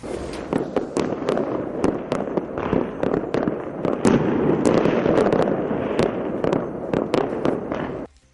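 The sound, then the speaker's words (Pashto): Celebratory gunfire fired into the air in Sanaa, Yemen: many sharp cracks and bangs in irregular bursts over a continuous crackling din, loud throughout, then cutting off abruptly at the end. “په تخت سنا کې خلکو په هوا کې ډزې کړي او خوشاله یې منځلي”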